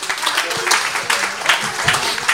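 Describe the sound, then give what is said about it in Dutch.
Audience applause, a dense crackle of many hands clapping at steady loudness for a couple of seconds, welcoming a guest at an outdoor family radio event. “Geef hem een daverend applaus, Erik Verbeuren”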